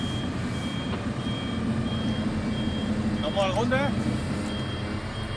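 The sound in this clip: Reversing beeps come from a relief-service truck that carries medical supplies, tents and generators. A steady run of thin, high electronic tones repeats over low engine rumble, with a brief voice partway through.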